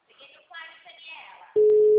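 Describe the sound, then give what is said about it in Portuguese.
A telephone ringing tone on an outgoing call begins abruptly after a short stretch of soft, voice-like sound, then holds as one loud, steady, unbroken mid-pitched tone to the end. “Ligação.”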